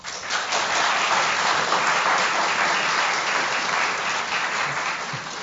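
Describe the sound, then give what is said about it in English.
An audience claps to vote for the statement it thinks is the fiction, producing a dense, even burst of applause that holds steady for several seconds and tapers slightly at the end. “Applaud for the one that you think is the fiction. How many people in the audience think the HIV-associated dementia one is the fiction?”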